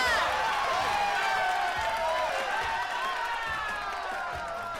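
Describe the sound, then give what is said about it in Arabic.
An audience applauds and cheers loudly, with overlapping shouts and whoops in a sustained burst that tapers off slightly toward the end. “استنوا ويستاهل سقفة كبيرة”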